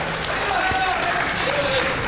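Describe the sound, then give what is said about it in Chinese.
Warm audience applause at a Chinese variety show, a dense and steady wash of clapping that carries evenly through the whole moment. “您瞧，这掌声这么热烈， 您 我都不敢不唱。”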